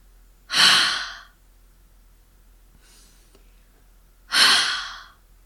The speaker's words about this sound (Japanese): 冬の寒い日に手のひらにあったかい息をかけると思って、思いっきり息を吐いてみましょう。こんな感じです。